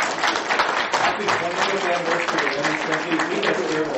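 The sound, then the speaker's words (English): Audience applause at a 20th-anniversary celebration, a dense steady patter of many hands clapping at moderate loudness for about four seconds, with voices mixed into the crowd. “How about a big round of applause?”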